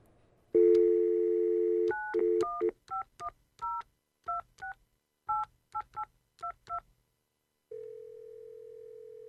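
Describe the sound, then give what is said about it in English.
Dial tone on a telephone line, then a quick run of many touch-tone key beeps as a call to a dentist is placed, ending in a steady lower tone; no voices. “Maybe I ought to call my dentist.”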